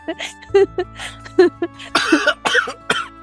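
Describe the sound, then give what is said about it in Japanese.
A person coughs and chokes after imitating a horse: a rapid, uneven series of harsh coughs and sputtering bursts, growing rougher and noisier toward the end. “むせてるじゃないですか。”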